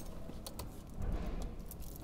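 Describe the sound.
A bunch of keys jangles in faint, brief metallic clinks over a steady low rumble, as a worker tries keys to gain entry during track and transport work on a city light-rail network.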